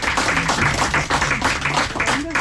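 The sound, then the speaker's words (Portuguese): Applause greets a guest singer on a Portuguese show: a dense, continuous wash of clapping with voices mixed in beneath it. “E merece palmas, não merece?”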